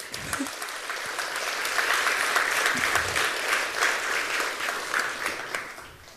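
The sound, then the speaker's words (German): An audience gives steady, dense applause as a performer comes on stage; many hands clap continuously at an even level for the whole stretch, without breaks. “Einen großen Applaus bitte für Jenny”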